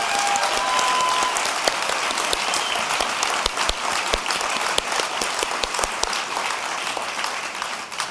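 Audience applause for guests at an event, a dense, sustained clapping from a crowd that holds steady for several seconds and tapers slightly at the end.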